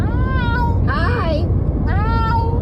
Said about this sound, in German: Hat sie Hi gesagt? Also erst war die Menschin zu hören, ne? Und dann die Katze.